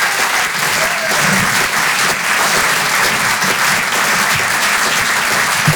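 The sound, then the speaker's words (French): A comedy club audience applauds at a live show on a Paris theatre stage. The clapping is loud and steady, a dense wash that holds without a break for the whole stretch. “Faites du bruit s'il vous plaît pour David Azencot.”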